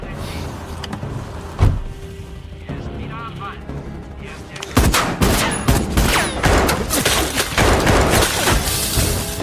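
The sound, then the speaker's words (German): Gunfire during a shootout: a lone sharp crack early on, then dense rapid bursts of loud cracks and bangs that run on continuously through the second half. “ich bin unter Beschuss”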